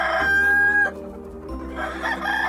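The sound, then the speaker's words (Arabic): A farmer's restless rooster, one that crows again every few minutes, lets out a long, loud, tonal crow, followed by lower clucking and a further rising call from the bird. “فلدي ديك لا يهدأ لدقائق حتى يعود للصياح.”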